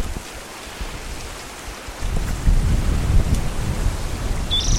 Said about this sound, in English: Very windy.